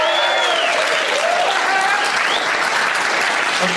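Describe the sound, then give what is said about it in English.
Audience applause at a live show in a lounge in Omaha, Nebraska, continuous dense clapping throughout with whoops or whistles sliding in pitch above it. “you don't need to leave the applause sign on for so long”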